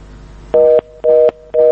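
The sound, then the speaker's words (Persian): A disconnected-line tone sounds after a phone call to a call-in program drops. It plays three loud, evenly spaced beeps of a steady, bright electronic pitch, each about a quarter second long, with short silences between. “تماس ما متاسفانه قطع شد با زکریا از لغمان”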